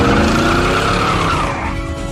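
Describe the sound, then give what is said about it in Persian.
Squealing tires as a cartoon vehicle accelerates away: a loud, continuous skidding screech with a motor underneath that eases slightly toward the end. “عالیه چیس، آماده شو یکم هوا بخوری. الان گاز میدم و میرم.”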